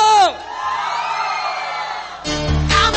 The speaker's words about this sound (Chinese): 来，让我听到你们今天晚上最大的尖叫声有多大？